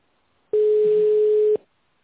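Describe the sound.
A telephone line tone plays while a caller waits to be connected to a reception desk: a single steady, mid-pitched beep lasting about a second, then silence.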